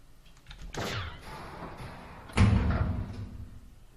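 A door is opened with two heavy impacts; the second is louder, a deep thud with a rumbling tail.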